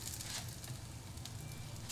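A second batch of green food sizzles as it cooks, giving a faint, steady frying hiss dotted with soft crackles and no voices.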